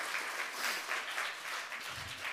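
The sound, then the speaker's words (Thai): Applause from a seated audience at a business product presentation: steady, dense clapping that holds at an even level throughout, with no voices over it. “ปรบมือให้เราทุกๆคนที่มานั่งอยู่ด้วยกันค่ะ”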